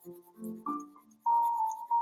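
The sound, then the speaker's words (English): A pencil coloring on paper, a few faint bursts of scratchy strokes with thin squeaky tones as the lead drags, separated by short pauses. “I'm still coloring, still using my pencil.”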